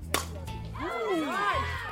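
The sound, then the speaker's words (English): A softball bat cracks once against a high, inside fastball in a game, a sharp single strike near the start, followed by a swell of loud, rising shouts and cheering voices. “That's the sound of a hit. It's a rocket down the left field line.”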